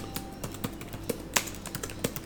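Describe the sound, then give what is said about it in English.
Typing a name into a search box on a computer keyboard produces a run of irregular, light key taps at moderate loudness, with short pauses between some strokes and no speech. “So I'm going to type in Mercedes Lackey”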